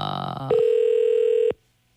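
A ringback tone on a phone call that goes unanswered: one steady, even tone lasting about a second, following a brief busier sound, then falling silent.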